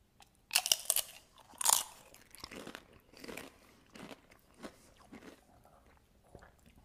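Someone bites and chews jalapeno relish taken from a jar. Two louder crunches near the start give way to softer, irregular chewing, all fairly faint.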